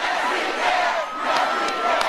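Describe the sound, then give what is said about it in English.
A crowd of more than 30,000 cheering and shouting at a presidential rally on the Ohio State University campus, a sustained roar that dips briefly in the middle before swelling back up. “The president and First Lady got an enthusiastic welcome by a crowd of more than 30,000 people at a rally on the campus of Ohio State University.”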